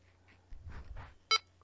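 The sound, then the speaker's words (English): A handheld radio beeps as its power setting changes. A few soft, low, muffled tones lead into one short, bright, sharper beep near the end, with no talking. “High power, which will be a low beep. Low power, which will be a higher beep, and the same beep will be extra low power, and I'm going to demonstrate that.”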